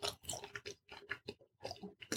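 Pizza being chewed between sips of wine gives a quiet, steady run of many soft, crunchy bites and mouth sounds in an uneven rhythm.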